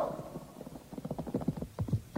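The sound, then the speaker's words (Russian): Horses' hooves of a mounted retinue of about fifteen staff officers on fine, well-groomed horses: many overlapping clip-clop strikes in a steady, uneven rhythm. They grow louder after a brief quiet start and continue to the end. “двигалась свита, около 15 штабных офицеров на прекрасных выхоленных лошадях.”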